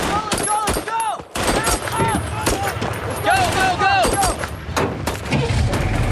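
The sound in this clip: A battalion lays down suppressive gunfire in a dense, continuous barrage of rifle and machine-gun shots, with overlapping cracks and deeper booms and voices beneath the shooting.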